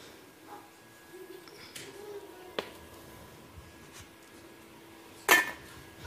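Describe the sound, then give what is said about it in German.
A pot of simmering noodles set down on a large hotplate in a kitchen, with a light clink partway through and a louder metallic clunk near the end over quiet background noise. “Unsere Nudeln köcheln da dahin. Wir werden die da auf die große Kochplatte stellen.”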